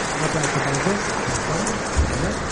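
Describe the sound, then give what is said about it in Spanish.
An audience applauds at a rally event, with dense, steady clapping throughout and voices faintly beneath it. “público aplaude.”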